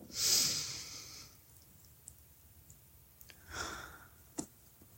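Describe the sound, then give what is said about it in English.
Breath drawn in and released during a guided relaxation: a strong, airy breath at the start, then quiet with a few faint clicks, and a second, softer breath near the end. “Breathe in. Release. Our breath is movement.”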